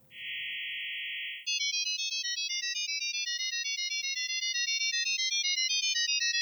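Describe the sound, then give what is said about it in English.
Audio tones carrying a file transmitted over sound: first a steady, high, held chord of tones, then a rapid unbroken stream of shifting high-pitched beeps at a constant level. “if you'd gone and we'd set up a session, this would actually be transferring a file to you. You ready? This is what it sounds like.”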